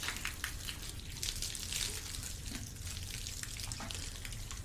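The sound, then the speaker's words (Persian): Water from a hose splashing as someone washes their face in a room inside a tunnel: faint, irregular patter and splashes with a soft running-water hiss. “محمد صورتش رو با شلنگ توی اتاق که تونل میشوره.”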